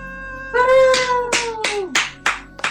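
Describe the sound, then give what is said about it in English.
A man punching his fist into his own palm in excitement, giving a quick series of sharp, slapping smacks with a drawn-out, falling vocal tone at the start. “So excited I actively punched my own hand. That's how excited I am about this episode.”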